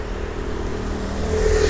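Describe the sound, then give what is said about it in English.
A moped riding past in a bike lane gives a steady buzzing engine drone with a faint whirring tone that swells slightly toward the end. No voices are present. “This guy's on his moped. This is a bike lane, bitch.”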